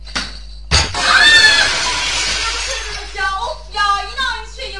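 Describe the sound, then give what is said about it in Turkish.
A window pane shatters after being hit by a kicked football: a sharp crash, then about two seconds of tinkling, ringing glass over a low hum. Voices talk afterward. “Eyvah. Cam kırıldı. Lütfen ortalığı toplayın.”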